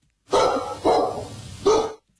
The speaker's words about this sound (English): Dogs. Okay, dogs.